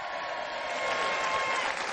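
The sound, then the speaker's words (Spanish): Applause from an audience for schoolchildren competing in a knowledge olympiad, a dense, steady wash of many clapping hands that stays loud and even throughout. “Por favor, tenemos un aplauso de esos que damos a nuestros colegios de los niños del saber de las Olimpiadas.”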